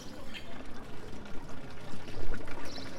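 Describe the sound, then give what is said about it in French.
Water flows steadily from a village fountain in the Alps, making a continuous, moderately soft splashing and trickling wash with gentle swells in level. “Ici, nous commençons notre promenade devant une fontaine”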